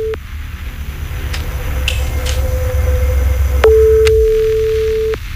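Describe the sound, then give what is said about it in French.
A telephone ringing tone sounds while a call is placed: one long, steady, mid-pitched tone near the end over a low rumble, with a fainter tone of the same pitch earlier. “Ça sonne.”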